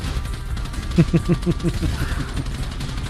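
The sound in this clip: Automatic gunfire in a GTA video game: a short, fairly faint burst of several evenly spaced, rapid shots over a low rumbling background.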